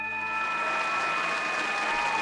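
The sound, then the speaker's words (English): A studio audience applauds to welcome a guest on a comedic talk show. Dense, even clapping runs at a constant level from start to finish, with sustained musical tones ringing over it. “Please put your hands together and welcome an undead apparition with unfinished business, Laura Griffin.”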